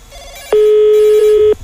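A telephone rings during a prank call: one loud, steady electronic ring tone lasting about a second, rich in buzzy harmonics, which then cuts off. There is no talk over it.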